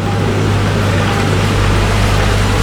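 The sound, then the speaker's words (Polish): Steady mechanical whir of a rotating clinostat, an RPM machine in a biology lab, with a constant low hum beneath broad, even noise and no breaks. “Co to za dźwięk? To jest dźwięk obracającego się klinostatu.”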